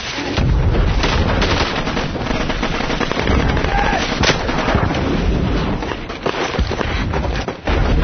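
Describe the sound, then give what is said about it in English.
Artillery fire being walked forward in a dense, continuous barrage of many overlapping booms and cracks, loud throughout with only a brief dip near the end. “Keep moving the artillery forward. Keep walking the artillery forward. Spread it out.”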